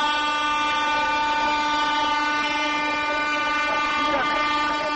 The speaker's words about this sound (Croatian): Evo stiže gvozdena mašina sa Šargana, Šarganski planina.